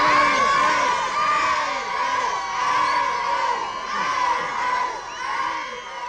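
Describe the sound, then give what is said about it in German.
Fans cheering and shouting as a train departs: a dense crowd of high, shrill voices whooping and screaming continuously, loud throughout with gentle swells. “Zurück blieben seine Verehrer, die ihn zünftig verabschiedeten.”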